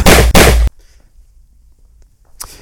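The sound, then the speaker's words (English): A loud gunshot sound comes as two harsh, broad blasts in quick succession, followed by near silence and a faint click. “What, is that a gun? What is wrong? Hey, what are you? Put that away!”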